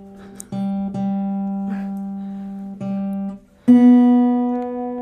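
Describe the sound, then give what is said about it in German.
Guitar strings ring out one at a time as the guitar is tuned with an electronic tuner: several plucked, sustained notes, each fading before the next, with the final string pitched higher and struck hardest. “Seid ihr live dabei, wie man eine Gitarre stimmt? Für die bildliche Vorstellung, ich habe ein Stimmgerät vor mir liegen.”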